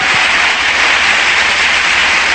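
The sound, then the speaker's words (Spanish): An audience at a church sermon claps in loud, dense applause that stays steady and unbroken throughout, with no voices standing out. “No le damos un aplauso al Señor.”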